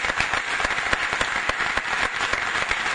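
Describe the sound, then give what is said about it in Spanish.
Audience applause at a local political gathering, a dense, steady burst of many hands clapping with sharp individual claps standing out, loud and continuous throughout. “que le pido un fuerte aplauso”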